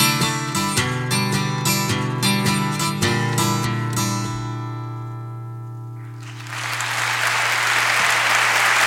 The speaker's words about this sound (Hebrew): אנחנו כמעט לקראת הסוף עם מחיאות כפיים, כן?